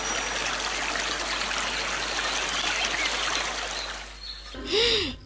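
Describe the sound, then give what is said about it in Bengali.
A river babbles as it flows: a steady, dense rush and gurgle of water that holds level for several seconds, then thins and fades near the end. “সুন্দর দৃশ্য, নদীটা কুলকুল করে বইছে”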